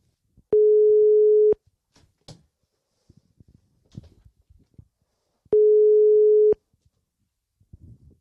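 Ringback tone of an outgoing telephone call: two steady, one-second tones at a single pitch about five seconds apart, with faint rustling and clicks in between.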